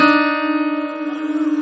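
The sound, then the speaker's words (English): The notes D and D sharp sound together as one sustained, clashing tone. A dissonant wobble beats through it and grows quicker and stronger toward the end. “Do it again. D and D sharp.”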